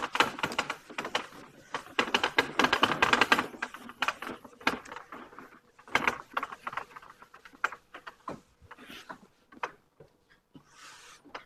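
Eraser scrubbing a board in quick, clattery strokes, dense and busy for the first few seconds, then thinning into scattered, sparser rubs and taps.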